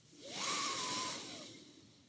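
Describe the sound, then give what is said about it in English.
A slow, deep inhale during a relaxation breathing exercise: one sustained breathy hiss lasting about two seconds, with a faint whistling tone, swelling early and then easing off, with no talk. “For this exercise, breathe in again.”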